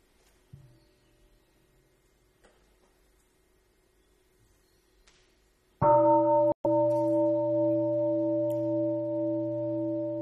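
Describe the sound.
A meditation bell is struck once for mindful breathing, a loud rich tone with steady low and mid partials that rings on and sustains after a brief break, following faint quiet background noise.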